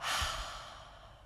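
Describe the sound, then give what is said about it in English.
A long, breathy exhale is heard during a guided relaxation exercise. It starts fairly loud and airy, then slowly fades over about a second. “Deep breath in. Exhale, letting go.”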